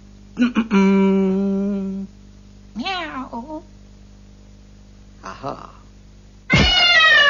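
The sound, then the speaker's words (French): A person imitates a cat meowing, giving four wavering mews: a long steady tone, a bending two-part cry, a brief faint one and a loud final meow that swoops down in pitch. “tu fais super bien le chat”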